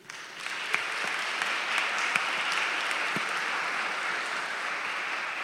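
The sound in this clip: An audience applauds to welcome a speaker at a talk, the clapping swelling almost at once into a dense, steady patter that holds at an even level for about five seconds.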